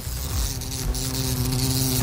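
Wasp buzzing around a balcony coffee break, a steady, droning insect buzz with a rough low hum that holds without pause for about two seconds, with no talk over it.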